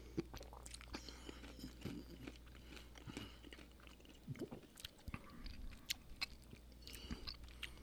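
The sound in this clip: Dill-flavored cashews being chewed, with many soft, irregular crunches and bites at a low, quiet level and no talking.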